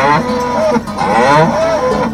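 Hereford cattle on a ranch give loud, low, drawn-out moos, two long calls separated by a brief break.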